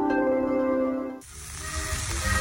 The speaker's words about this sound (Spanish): mientras el carbón cocina la carne asada chillando en su asador